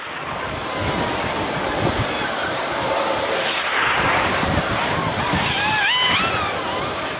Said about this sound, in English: And now it's a pretty consistent loud rumble. I set up my gear near the largest and busiest airport in the world, which is obviously an incredibly noise-polluted place.